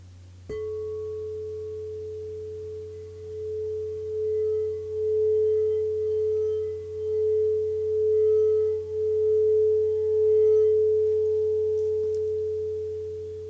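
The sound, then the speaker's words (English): A singing bowl sounding the note A, a pure sustained tone that rings for about thirteen seconds with slow wavering pulses in loudness and a low hum beneath. “That is the note of A. And you should have felt it in between your eyebrows, that part of your face area.”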